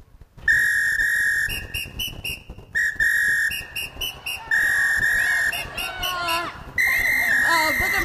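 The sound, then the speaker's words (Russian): A man whistling a song's tune, clear held notes at steady pitches with short gaps and stepped changes between them, turning to quicker wavering notes near the end, loud and alone. “А мужчина продолжает насвистывать. Слушаем.”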